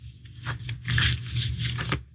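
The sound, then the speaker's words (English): Oracle cards shuffle and one is drawn from a deck, giving a few soft papery swishes and flicks that are fairly faint, with no voices. “And the third card, please.”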